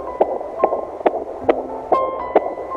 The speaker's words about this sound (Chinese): 这是你在妈妈肚子里的心跳